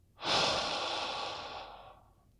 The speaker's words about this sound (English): Repeat this several times. In through the nose, and out through a wide open mouth.